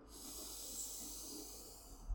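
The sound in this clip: A deep inhale through the nose during an alternate nostril breathing practice: a soft, steady hiss of breath that holds evenly for about two seconds, heard alone.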